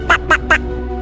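A duck quacking sound effect: three short, nasal quacks in quick, even succession, loud and alone, followed by a quiet tail.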